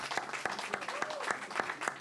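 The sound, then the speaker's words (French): An audience at a performance claps in unison to a steady beat, with about seven evenly spaced sharp claps. A voice carries on faintly underneath. “Moi, je pense que vous devez continuer à l'applaudir jusqu'à ce qu'elle arrive à nous, s'il vous plaît.”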